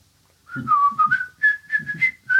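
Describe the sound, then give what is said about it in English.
A person whistles while doing paperwork: a wavering, fairly high tune in short phrases with brief breaks, mostly steady and clear, alone without talk. “I'm also like whistling, like,”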